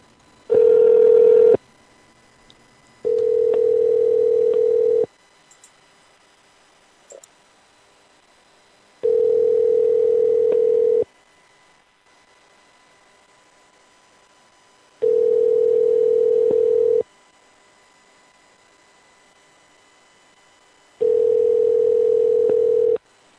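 Telephone ringing tone while a call is being placed: a steady mid-pitched hum sounding in bursts of about two seconds, separated by long silences, five bursts in all, with the first one louder.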